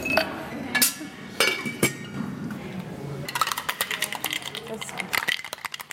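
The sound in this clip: Ice cubes clink into a glass of fruit juice cocktail mixed from orange, pineapple, passion fruit and curaçao. A few sharp, separate clinks give way to a quicker, rattling run of knocks.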